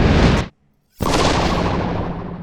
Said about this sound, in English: Suddenly, the room exploded in a blinding burst of energy, and everything in it dissolved.